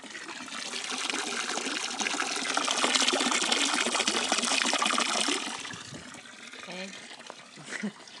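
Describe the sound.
Water pours into a container with a steady rushing splash that holds for a few seconds, then eases into a softer trickle.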